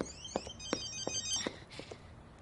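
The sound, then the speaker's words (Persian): A phone ringing: a faint tone pattern repeats in short, evenly spaced pulses over a soft background. “دیدی گفتم صدای گوشی میاد.”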